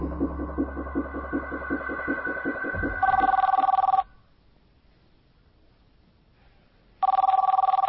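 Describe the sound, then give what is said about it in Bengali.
A telephone ringing in two bright, steady electronic bursts, the second starting after a silent pause of about three seconds, preceded by a rhythmic tonal pattern. “কিরে, phone তুলতে তুই এত দেরি করিস কেন বলতো?”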